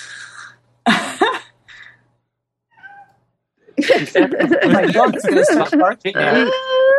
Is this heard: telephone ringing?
no